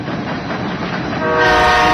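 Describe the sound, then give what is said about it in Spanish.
A train approaches furiously, its steady rumble swelling louder toward the end, where a sustained horn-like tone joins the noise. “El tren se acercaba furioso.”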